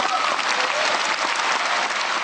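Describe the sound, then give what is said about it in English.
Audience applause during a political speech: a dense, continuous wash of many hands clapping, loud and even from start to finish. “And I don't exactly think they were applauding the collapse of the economy, but you get the point.”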